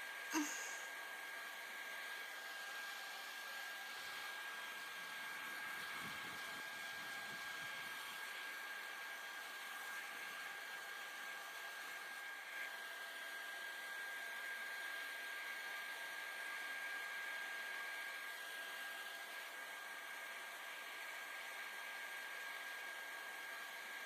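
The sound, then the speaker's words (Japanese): A hair dryer blows hair dry while it is styled with a blow brush. It gives a steady, even whir that holds the same level throughout, with no voices. “髪の毛熱くない？じゃあこのまま乾かしていくね。”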